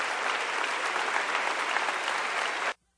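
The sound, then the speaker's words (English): A church audience claps hands in praise, a steady, dense wash of applause at an even level that cuts off abruptly near the end into silence. “Come on, clap your hands and give God praise in this place.”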